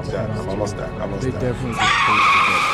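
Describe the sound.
Tires squeal as a car skids in the crash scene of a 2008 romantic drama film. After a stretch of voices, a sharp, high, sustained screech takes over loudly.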